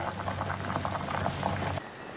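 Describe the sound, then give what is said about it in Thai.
Water boiling in a pot for blanching bean sprouts makes a steady, bubbling rumble with a faint rhythmic churn. It cuts off abruptly near the end, leaving only a quiet hiss. “เสร็จแล้วค่ะเราจะลวกถั่วงอกก่อน”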